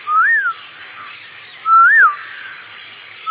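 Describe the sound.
A person whistles to imitate the call of the koel, a cuckoo. Two loud, clear whistled notes each rise and then fall, separated by a pause, and a third begins at the very end.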